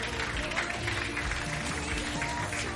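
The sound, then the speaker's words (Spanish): A church audience claps for the Lord during a Spanish-language morning service, a dense, steady patter of hands blended with other background sound and voices. “Regálele palmas al Señor esta mañana.”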